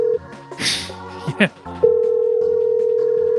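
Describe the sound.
A phone ringback tone sounds on an outgoing call that rings many times, a steady, loud, mid-pitched tone that drops out briefly while noisy sounds intrude, then resumes.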